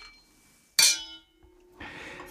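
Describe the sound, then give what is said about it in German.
Glasses clink in a toast with a single bright, sharp chime that rings on in a fading high tone. About a second later, soft rustling follows. “Lass uns mal anstoßen.”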